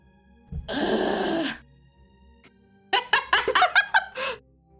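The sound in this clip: A long, breathy groan rises and trails off, followed after a pause by a few short, choppy laughing bursts.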